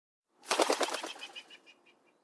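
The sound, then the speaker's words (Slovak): A pigeon's wings flap rapidly as it takes off and flies away, a quick burst of beats that fades out over about two seconds. “Milý kôň sa v tej chvíli premenil na holuba a letel preč.”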